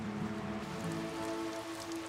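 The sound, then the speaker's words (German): Monsoon rain falls over the Grand Canyon in northern Arizona, a dense, unbroken hiss of drops hitting the ground that stays steady and even for the whole stretch, with no voices. “Im Sommer wird der Himmel über dem Grand Canyon launisch. Monsunregen vom Pazifik erreichen das nördliche Arizona.”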